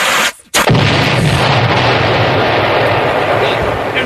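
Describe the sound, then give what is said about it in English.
A Kansas City Chiefs-themed egg explodes: after a brief hush, a sudden loud blast erupts into a dense, noisy roar that holds steady for several seconds. “The Kansas City Chiefs egg exploded!”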